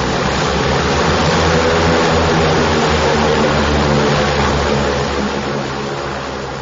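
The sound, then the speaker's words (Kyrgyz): Passenger airplane departing, bound for Bishkek: a loud, continuous engine roar with a deep droning undertone, holding steady before easing slightly at the end. “Жүргүнчүлөр олтурган соң кезектеги самолет аларды Бишкекке көздөй алып жөнөдү.”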